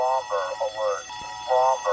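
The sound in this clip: An emergency-alert style alarm sound effect, like a phone alert going off, plays as warbling electronic tones in several repeated bursts with short gaps between them.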